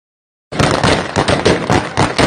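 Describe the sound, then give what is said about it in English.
Gunfire outside an airport where crowds wait under Taliban control: a rapid series of loud, sharp cracks following a moment of silence and continuing without pause. “And of course, you can hear the gunshots, so things are going beautifully right outside the airport.”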